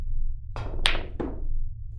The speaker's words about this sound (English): All right, combo shot. 4 ball into the 7 and corner pocket.